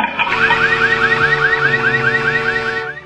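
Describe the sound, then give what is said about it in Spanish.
A comic sound effect stands in for opening a can of peas: a loud, steady run of many rapid rising electronic whoops, like a car alarm, repeating evenly for about three seconds before cutting off. “Señorita, compré unas latas de arvejas y están malas. ¿Qué tienen? Escuche, voy a abrir una.”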